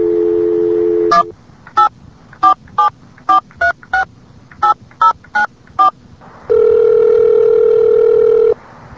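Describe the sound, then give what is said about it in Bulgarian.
Touch-tone dialing of a destination telephone number: a dial tone gives way to a quick run of short keypad beeps, then a long steady tone. “Please enter your destination number now.”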